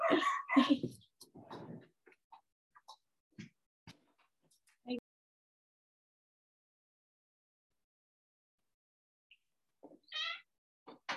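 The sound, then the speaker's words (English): Two dogs scuffle with a cat in short, faint bursts of yowling and snarling animal cries, then a long quiet gap before another brief outburst. “I apologize about the dog barking. Stop and see what the matter is.”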